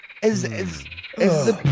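Frogs croaking: two loud, raspy, throaty bursts with a short croak at the end, harsh and harmonic-rich, without talk.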